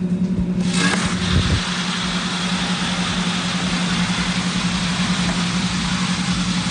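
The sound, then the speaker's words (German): Green coffee beans tumble in a turning coffee roaster drum, making a steady, rumbling mechanical whir with a low hum underneath. The sound is continuous and fairly loud throughout, and no one talks. “Und dann können wir die Klappe öffnen und werden hören, wie der Rohkaffee sich in der Trommel dreht und langsam aber sicher zum fertigen Röstkaffee wird.”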